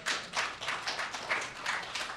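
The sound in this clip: Audience applause heard as a faint, steady patter of clapping, with short uneven swells of hand claps and no voices over it.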